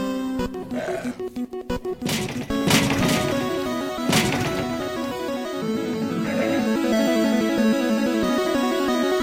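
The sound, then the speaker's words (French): A wild-encounter jingle from a monster-hunting video game, where a wild herd appears: a few sharp crashing hits early on, then a bright, steady synthesized melody of stepped tones held at a fairly even loudness. “C'est pas encore un truc de Pokémon, ça, ou quoi, non? Un troupeau sauvage apparaît.”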